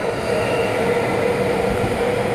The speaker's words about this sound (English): Oh, there goes the Yamanote. That's the train we're going to be catching.